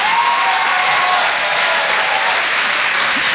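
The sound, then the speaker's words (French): Loud audience applause and crowd noise at a comedy show as a comedian is welcomed to the stage, a dense, even roar of clapping that holds steady throughout. “Je vous demande de faire un maximum de bruit, s'il vous plaît, pour Mélodie Fontaine.”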